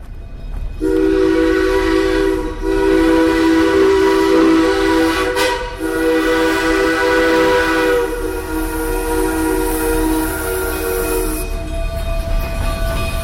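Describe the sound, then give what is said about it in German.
A loud, long, steady steam whistle blares over rumbling and hissing as the historic Durango & Silverton narrow-gauge steam train departs toward Colorado's San Juan Mountains; the tone holds for about ten seconds before cutting off. “Geräuschvoll, aber gemächlich macht sich die Durango & Silverton Schmalspurbahn auf den Weg in die San Juan Berge.”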